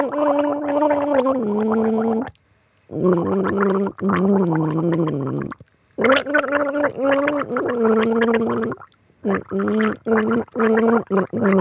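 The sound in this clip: A person gargles a song, the bubbling throat sound following a melody in several sustained phrases separated by brief pauses, with a shorter, choppier burst at the end.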